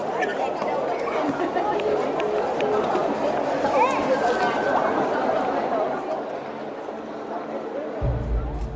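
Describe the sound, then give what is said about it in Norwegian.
Crowd chatter fills a large, crowded hall: a dense babble of many overlapping voices that thins slightly toward the end, where a low rumble enters. “Helge går en runde i det store lokalet, men han ser ikke Roger noe sted. Det er mennesker overalt.”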